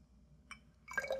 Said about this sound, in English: First, I'll pour the water into this bigger beaker